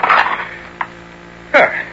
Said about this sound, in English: I beg of you, do not break the seal. Silence! Now to lift the lid.